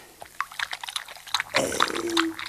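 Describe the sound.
Milk is poured into a bowl and spills over: a few short drips and taps, then a steady splashing, gurgling pour that carries on to the end.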